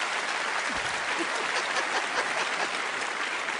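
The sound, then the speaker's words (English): A studio audience gives a round of applause, a dense, even patter of many hands. It stays fairly quiet and steady from start to finish. “From a big round of applause from our studio audience.”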